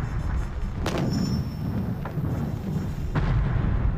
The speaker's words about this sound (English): Ludendorff mounted a new assault to the north in Flanders, firing off some 40,000 gas shells.